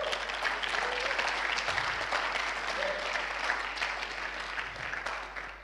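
A church audience claps to welcome visiting guests from Good Life Church in Newcastle, steady, dense applause that fades slightly toward the end.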